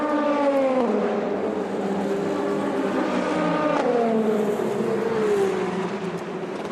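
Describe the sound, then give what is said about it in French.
Race car pulling away from its pit stop during a race, the engine roaring loud and continuous as its note climbs, drops sharply at two upshifts, then climbs again; no voices. “Et ça repart pour Yifei.”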